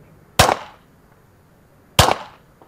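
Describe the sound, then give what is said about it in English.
Two loud, sharp gunshots from an unsuppressed 9mm handgun, spaced well apart, each a sudden crack followed by a short, fading ring. “First up, that 9mm handgun, one of the most common guns on the market. No suppressor. Firing.”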